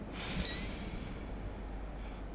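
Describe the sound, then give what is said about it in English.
A deep breath drawn in, a soft, airy inhale that swells at the start and then continues as a steady breathy hiss for about two seconds, heard alone without talk. “let's just all take a deep breath in”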